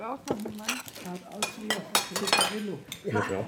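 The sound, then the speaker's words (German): Dishes and cutlery clink at a long table where several elderly women and a man sit over coffee, with scattered light clatter running beneath steady conversation throughout. “Mehrere ältere Damen und ein Herr sitzen an einer langen Tafel. Jemand schenkt Kaffee aus. Die Butter wird herumgereicht.”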